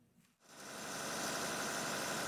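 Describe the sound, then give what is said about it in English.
A backup power generator runs through a week-long power outage in the Sudanese capital, giving a steady, continuous mechanical drone that swells over the first half second and then holds even. “Ahmed Yaqub checks on his generator several times a day to make sure it's running properly.”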